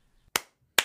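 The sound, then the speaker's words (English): One person claps their hands twice. The two claps are sharp and crisp, spaced under half a second apart, with near silence around them. “Guys, that's the sound of me clapping for my guest, Justin Paperny,”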